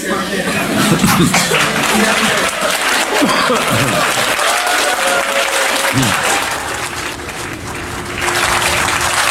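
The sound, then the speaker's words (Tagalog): Applause fills the Senate chamber in sustained, dense clapping, mixed with chuckles and voices chatting underneath. “It is prohibited to clap in the Senate during a session. So, but it's all right, you're exempted.”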